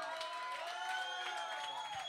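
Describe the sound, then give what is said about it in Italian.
Audience applause and cheering at a live show after a performer calls for a hand for a young man, a steady dense wash of clapping with voices mixed in throughout. “Mi fate un applauso per sto ragazzo qua, per favore.”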